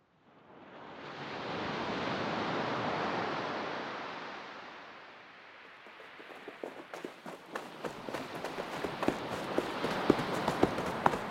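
Waves wash in at the Dead Sea shore as a broad, soft hiss that swells and then recedes, followed by many quick, light footstep-like taps.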